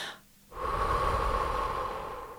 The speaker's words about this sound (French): Quand on sent que l'émotion nous envahit, simplement respirer en accentuant légèrement sur l'expiration.